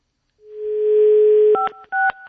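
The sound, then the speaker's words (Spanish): Telephone keypad tones while dialing an extension: a steady dial tone hums alone for about a second, then gives way to two short, clear dual-pitch keypad beeps in quick succession. “no voy a contestar, voy a marcar. Hay que marcar al 5”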